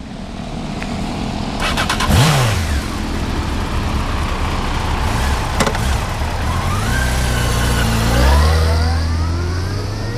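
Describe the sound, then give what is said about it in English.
A motorcycle engine runs loud and steady throughout, with a rough mechanical drone and shifting engine tones that climb as it revs near the end. “Come on, let's take the bike. It's quicker.”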